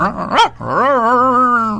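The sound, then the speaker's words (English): A person's voice imitates a dog barking, meant as a Chihuahua and St. Bernard mix: a quick yelping rise, then a long, wavering, throaty howl-like bark. “What kind of a dog is that? Oh, that was a Chihuahua St. Bernard combination.”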